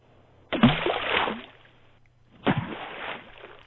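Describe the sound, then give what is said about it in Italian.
Two heavy splashes as people fall into a water-filled ditch, each a broad burst of sloshing water that trails off over about a second, separated by a short pause. “Pinocchio, che sentì il tonfo e gli schizzi dell'acqua”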